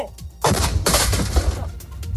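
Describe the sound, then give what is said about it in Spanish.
The Guardia Civil detonates a German aerial bomb from the Civil War, found in a yard in Toledo. A sudden loud boom bursts into a heavy, crackling, rolling roar that stays strong for over a second before easing slightly. “Así suena una bomba de la Guerra Civil de la aviación alemana encontrada en un patio de Toledo. Así la ha detonado la Guardia Civil.”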